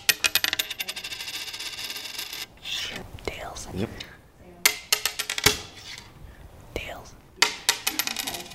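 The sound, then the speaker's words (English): A coin is flipped and lands, giving bright metallic clinks and rattling spins in a few separate bursts with quieter gaps between them. “Roll the tape back to a moment right at the beginning of our coin flip.”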